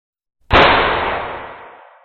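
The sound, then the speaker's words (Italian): A single gunshot rings out at night near a river. One sharp, loud crack is followed by a long, rumbling decay that fades over about a second and a half. “Un secondo sparo rimbombò”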